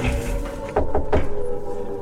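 Someone who has been locked out knocks on a door: three quick knocks sound over a steady background hum.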